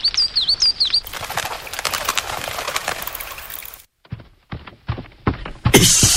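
A bird chirps a few times, then its wings beat in a rapid, noisy flurry as it flies off, followed by a few short, separate knocks.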